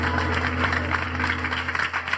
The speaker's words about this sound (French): Applaudissements.